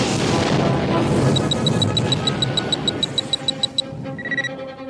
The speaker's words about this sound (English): The blast exploded into Reliant.